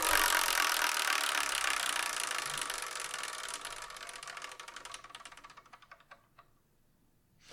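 A prize wheel, the Wheel of Manga, spun to pick the next manga for review: its pointer ratchets in a fast stream of clicks that gradually slow and thin out to a few last ticks before stopping.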